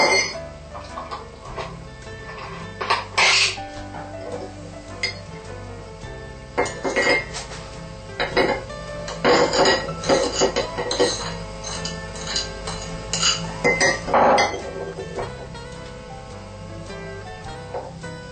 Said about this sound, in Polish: drugą szklankę sojowego napoju mieszamy z mąką, ze skrobią kukurydzianą i z cukrem waniliowym.